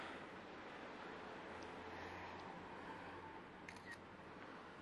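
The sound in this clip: Camera shutter clicks as photos are taken: a few faint, sharp clicks over a steady background hiss.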